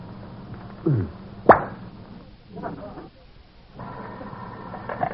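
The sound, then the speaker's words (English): A brandy bottle being opened gives one short, sharp plop, with soft handling and rustling noises before and after it. “did you just open a bottle of brandy?”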